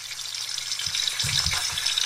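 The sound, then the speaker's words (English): Sausages sizzling as they fry, a steady bright crackling hiss throughout with a few soft low thumps in the middle; no voices. “There's them sausages sizzling.”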